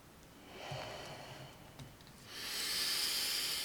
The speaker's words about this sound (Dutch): We ademen nog samen één keer in en uit.